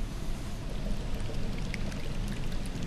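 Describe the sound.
A colourless liquid pours through long tubes into the two chambers of a laboratory device, making a steady, continuous rushing flow of even loudness with no break.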